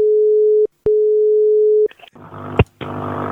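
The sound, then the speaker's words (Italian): A steady telephone dial tone before a prank call, broken once by a short click, then giving way to the rustle and clicks of the line being dialed and connected. “E con queste motivazioni noi andremo a chiamare un po' di gente in Toscana, sentiamo un po' come risponderanno.”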